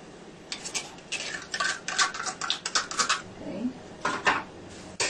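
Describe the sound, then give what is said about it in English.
A utensil clinks and scrapes against a bowl while milk and sugar are mixed together for pouring over bread, in many quick, repeated stirring strokes with brief pauses. “Mix them up together. Just mix them. Very quick and simple. Because we're going to pour over the bread.”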